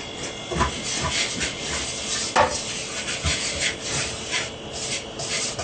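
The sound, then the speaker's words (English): Dry, steady rasping and rubbing as salt and flour are mixed together by hand, a continuous gritty scrape with small irregular surges and no talking. “Then we put in a pinch of salt. Mix it well.”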